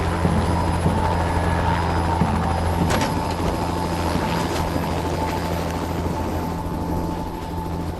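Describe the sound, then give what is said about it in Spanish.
A helicopter in flight gives a continuous, loud rotor drone with a steady low hum and a faint high whine, holding an even level for the whole clip with no voices. “Un helicóptero recogió a Blake y se dirigió rápido al lugar.”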